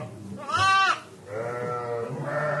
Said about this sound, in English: We're here at the Seguin farm in August, and there are lambs in the barn